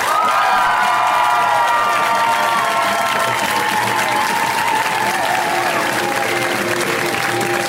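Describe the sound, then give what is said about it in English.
A crowd applauds and cheers as a comedian is welcomed to the stage at a comedy show. Loud, sustained clapping carries whoops and shouts throughout. “Please give a warm welcome, first time to put your hands together, Margaret Cho.”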